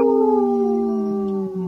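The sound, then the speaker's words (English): A wolf howls in one long, smooth, sustained tone whose pitch falls slowly. It is loud and stands alone. “Howling for Wolves, protecting wolves for future generations. Howl!”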